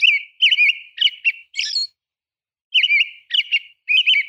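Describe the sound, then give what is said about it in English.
A robin's evening song from sunset until dark, with whispered notes woven in: clear, high chirping, warbled phrases, several in quick succession, a short pause, then a few more, heard alone. “From sunset until dark, a robin adds ethereal whispered notes to its carol, creating a song of remarkable grace and complexity.”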